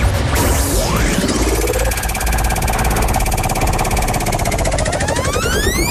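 A game show prize wheel spins, producing a loud, continuous rapid ratcheting clatter mixed with rising and falling tonal sweeps that carry on steadily throughout, with no talking.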